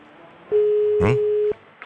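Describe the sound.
Outgoing telephone ringback tone from a morning call to a listener: a single steady mid-pitched beep lasting about a second, with a brief noise burst over its middle and quiet line hiss on either side.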